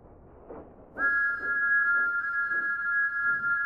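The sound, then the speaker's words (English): A steam engine's whistle sounds in a quarry: one loud, sustained, steady tone begins about a second in and holds to the end, over soft, regular chuffing that runs throughout. “The sound of Thomas's whistle has changed. Thomas's whistle echoes.”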